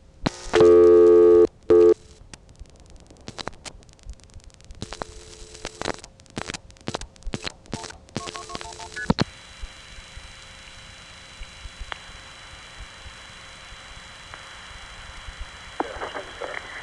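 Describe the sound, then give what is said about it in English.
Telephone line tones and touch-tone dialing of extra digits: a loud steady tone opens, then a run of short dial bursts and clicks, followed by a long, quiet, sustained line tone. “What I'm going to try to do here is dial a few more digits after 180.”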